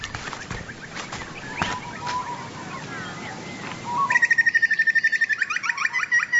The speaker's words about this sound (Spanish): Graznido de un pájaro en una rama.